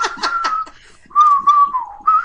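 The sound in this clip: A man whistles a song tune in two phrases of fairly steady, sustained notes with slight glides, broken by a short pause, with breathy puffs during the first phrase.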